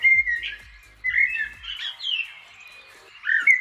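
Eurasian blackbird song: a few bright, warbling whistled phrases separated by short pauses, fairly loud, with no talking.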